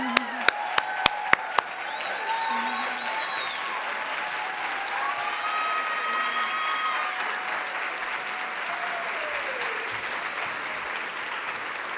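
An audience applauds to welcome Virginia Lieutenant Governor Winsome Earle-Sears: a few sharp, separate claps at the start swell into sustained, even applause, with whistles and cheers rising above it.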